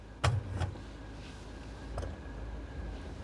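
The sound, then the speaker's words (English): A car's emergency brake is released before the car reverses: two sharp clunks close together, a softer click a moment later, then a faint low engine rumble continues. “Now take off the emergency brake, put it in reverse, and carefully back out.”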